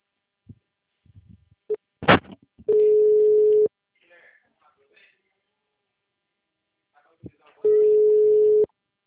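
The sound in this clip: A telephone tone sounds after a dropped call: two long, steady, low beeps about five seconds apart. Brief clicks and short vocal sounds come before the first beep.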